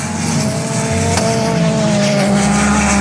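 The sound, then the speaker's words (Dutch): A race car drifts through the corners with a loud, constant engine roar. High, sustained tire squeal runs across it without a break. “Kijk hem eens eventjes mooi rondgaan en door die bochten heen driften.”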